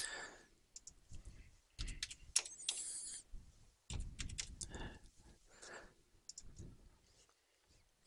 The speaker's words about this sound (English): So first, I have to enter my username and password.